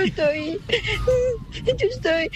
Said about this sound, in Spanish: Hola, no llores, tranquila. Hola. Ay, cómo le chilla el chiquito.